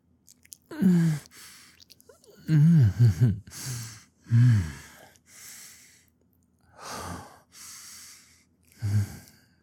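Heavy breathing of a person catching their breath: a series of gasping, sighing breaths, some of them voiced and moan-like, coming in uneven bursts with short quiet gaps.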